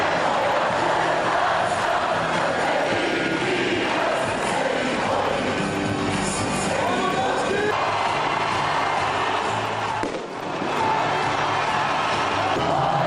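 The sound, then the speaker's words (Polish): Croatian football fans in Russia celebrate with loud, sustained crowd cheering. Whoops, yells and chanting voices blend into a continuous roar, with one brief dip around ten seconds before the din resumes. “Możecie Państwo posłuchać chwilę. Właśnie tak cieszyli się Chorwaci w Rosji.”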